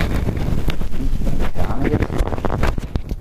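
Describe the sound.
Handling noise as both windscreens are taken off a running audio recorder: dense, loud rustling and rumbling crackle throughout, dotted with sharp clicks and scrapes.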